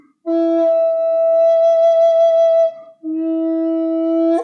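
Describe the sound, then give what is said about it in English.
A wooden flute with a block, set for a wispy tone, plays two sustained notes: a long, breathy, steady tone, a brief gap, then a second held note. No talk accompanies the playing. “when you're creating a flute, say, for instance, you have it really wispy sounding, so it sounds like this.”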